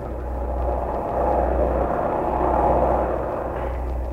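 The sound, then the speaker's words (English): A propeller airplane takes off in 1943, its engines giving a steady, loud droning roar with a low rumbling hum that holds without a break. No voices are heard. “Our plane took off at”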